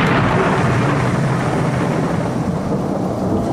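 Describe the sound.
A thunderstorm with lightning strikes rolls as a loud, steady, continuous thunder rumble with a broad hiss over it, holding nearly constant through the whole stretch.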